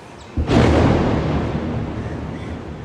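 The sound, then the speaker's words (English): A missile is intercepted overhead above Dubai: one sudden, heavy explosion lands with a sharp thump, then rolls on as a broad, deep rumble that slowly fades. “So that was the sound of missiles overhead being intercepted.”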